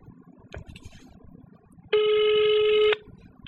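A telephone rings once, a single loud, steady electronic tone lasting about a second with buzzy harmonics, following a stretch of faint low background noise.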